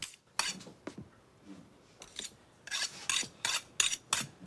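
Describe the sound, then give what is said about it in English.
Knife being sharpened with a series of dry, rasping metal strokes, a few spaced out at first and then many in quicker succession, each a short gritty scrape. “The cameraman takes off his scarf and coat while Lee's sharpening a knife.”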